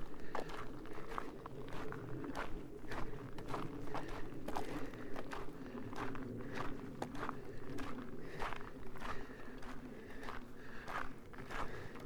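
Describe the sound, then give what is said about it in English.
Many steady footfalls of someone walking along a paved road built for cars, evenly spaced crunchy steps at a relaxed pace over a faint continuous background hum. “Steep hills aside, walking along roads made for four-wheelers sure is pleasant. I barely have to look at the ground.”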